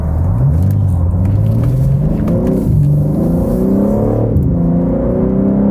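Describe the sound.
Engine of a 2023 BMW M3 Competition xDrive accelerating on a drive: a loud, continuous rumble that climbs in pitch, dips at gear shifts and climbs again, with no talking.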